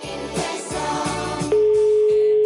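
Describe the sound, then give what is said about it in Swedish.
A telephone dial tone sounds while a call is placed. A busier stretch of mixed sound comes first, then a steady single-pitched tone sets in abruptly and holds loud and unchanging to the end. “Jag beslöt att ringa till JO för att ta reda på det.”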